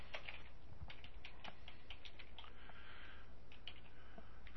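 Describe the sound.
Keyboard typing as a book review title is entered on a computer: many quick, irregular clicks, faint and continuous, with no talking.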